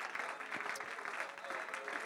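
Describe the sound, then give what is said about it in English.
A church audience claps their hands together in a dense, fast, continuous patter of many hands, faint and even, with no break across the short moment. “One more time, clap your hands all across the house.”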